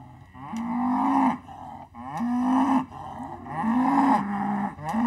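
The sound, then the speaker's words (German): A mother cow calls out for her lost calf with a few long, drawn-out moos separated by short breaths, each low and resonant, the later ones loud and sustained with a slight drop in pitch near the end. “Mäuschen, dein Kalb rennt hier irgendwo rum. Das hast du hier irgendwo hin verloren.”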